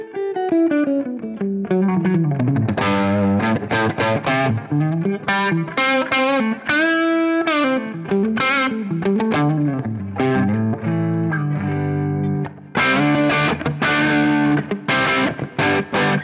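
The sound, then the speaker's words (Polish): Electric guitar through a Marshall Plexi amp at full distortion, playing a loud, continuous riff with many quick notes and sustained bends, with one brief break near the end. “pojawia się pełny przester. Dlatego on nie wybacza błędów.”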